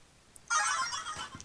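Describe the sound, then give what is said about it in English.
A mobile phone rings: a short, bright electronic ringtone phrase, fairly faint. “I need to turn my phone off here.”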